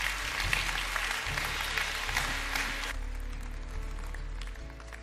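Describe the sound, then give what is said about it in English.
A church audience applauding to welcome new believers, a full, lively round of clapping that holds for about three seconds, then thins out and fades away. “Can we just put our hands together and welcome people into God's family?”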